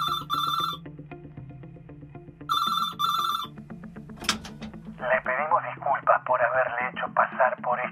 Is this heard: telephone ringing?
yes